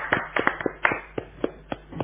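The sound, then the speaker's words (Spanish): Sparse, irregular hand claps from a few hosts applauding themselves in a studio with no audience: many light, uneven claps, loosely timed and fairly soft. “Ya está suficiente los aplausos, porque la radio nos dijo que nos tenemos que aplaudir a nosotros mismos.”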